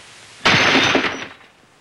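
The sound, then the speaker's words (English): A brandy glass thrown at a fireplace shatters in one sharp, loud crash, followed by a short spray of tinkling shards that fades within a second. “He finishes his brandy. I'd hoped you might be beautiful. He tosses his glass at the fireplace.”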